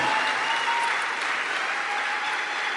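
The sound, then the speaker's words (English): Steady audience applause at a church welcoming a missionary's wife, many hands clapping in a dense, even roar that holds its loudness throughout without talk. “We must actually clap for his wife.”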